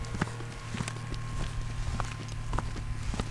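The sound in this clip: Footsteps head toward the back kitchen of a food truck: a few irregular soft thuds and knocks over a steady low hum.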